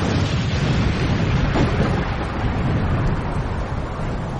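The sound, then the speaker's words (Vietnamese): A thunderous blast from a mountain-blasting cannon rolls on as a loud, continuous roar with deep rumble, holding steady for several seconds without a distinct single crack. “Chưa mắng hết câu, lại nghe một tiếng nổ rền vang như sấm.”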